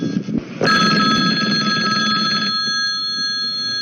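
A telephone ringing with a steady, high electronic tone that starts abruptly, holds for about two seconds, then continues more quietly to the end.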